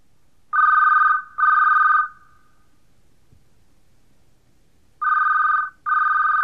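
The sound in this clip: A telephone rings in two double-ring pairs, four loud, even electronic trills in all, with a long quiet gap between the pairs, as the call goes toward an answering machine.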